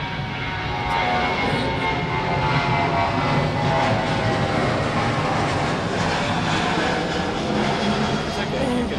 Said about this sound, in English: that's a departing Virgin 737.